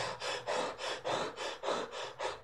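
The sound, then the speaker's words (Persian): A person demonstrates chest breathing like a runner's over a distance: many quick, even, rhythmic breaths, each a short breathy rush, faint and alone. “نفسگیری از طریق سینه. ببینید، ما وقتی که مثلا یه مسافتی رو میدوییم اینطوری نفس میکشیم”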